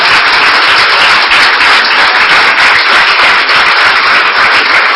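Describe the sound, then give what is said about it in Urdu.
Loud applause from an audience at a religious gathering, clapping in praise of God: a dense, steady wash of many hands that stays unbroken and even in loudness throughout. “اس عظیم خدا کے لیے زوردار تالیاں بجائیں گے۔”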